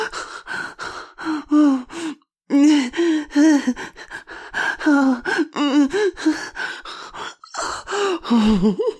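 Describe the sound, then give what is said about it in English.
Man groaning loudly, many rapid voiced moans and sharp gasping breaths in an uneven rhythm, loud throughout with only a brief pause. “I've never heard you groan so loud.”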